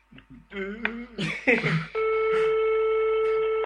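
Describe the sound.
A steady telephone ringing tone on a call just before voicemail answers: one long, unbroken electronic buzz that follows a stretch of voices talking.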